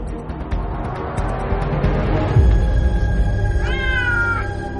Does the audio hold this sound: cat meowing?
yes